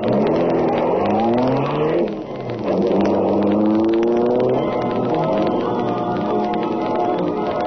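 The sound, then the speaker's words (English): A sleek, super-powered black high-speed car roars loudly as its engine revs and climbs in pitch. The pitch dips briefly near the middle, then rises again into a sustained high-speed drone. “super-powered black beauty, high-speed car of the Green Hornet.”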